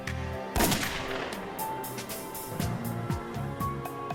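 A loud, sharp gunshot from a .38 calibre weapon, fired into meat during a ballistic test with a chronograph, cracks out early, followed by a few smaller knocks and clicks over a steady noisy background.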